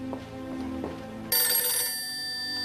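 A telephone rings as a call is placed: low hum and a few soft taps lead in, then a bright, high electronic ring tone starts abruptly partway through and sustains loudly to the end.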